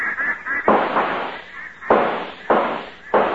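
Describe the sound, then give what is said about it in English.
Gunshots fired at a flight of ducks over a lake: four sharp, loud blasts at uneven intervals, each followed by a short fading tail. “I got one. I got one. Missed. I think you're leading them too far. I think you're shooting behind them.”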